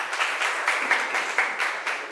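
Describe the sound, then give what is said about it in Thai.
Children clap for a classmate, many small hands producing a steady, even patter of applause at moderate volume throughout. “ปรบมือให้เพื่อนหน่อยค่ะลูก”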